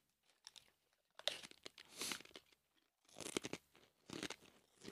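Crunching of Stacey's chips being eaten: faint, crisp, crackly bursts of chewing come in several clusters separated by short pauses.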